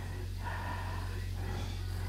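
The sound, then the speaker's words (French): Heavy, laboured breathing from a person whose heart is making them breathe hard: slow, rasping breaths that rise and fall over a steady low hum. “Là, c'est ton cœur qui te fait respirer comme ça ?”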